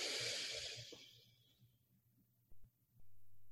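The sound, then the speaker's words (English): Slow breathing during a guided breathing exercise: a faint airy rush of breath that fades out over about a second and a half, followed by near quiet with a low hum and a few soft thumps. “pay attention just to your breath just how the air goes in”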